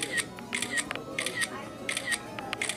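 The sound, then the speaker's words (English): Camera shutter clicks go off in quick repeated bursts as a group selfie is taken at a restaurant. The crisp, bright snaps recur several times over faint talk. “Group selfie.”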